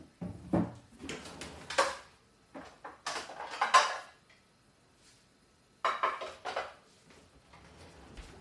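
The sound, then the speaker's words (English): A metal utensil scrapes and clanks against a cooking pot while it is cleaned, in a few irregular bursts of clatter separated by short quiet pauses. “Clean up a little bit of the pot.”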